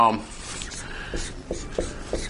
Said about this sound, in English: So today I'm going to have one word up here, and I'm going to write it on the board.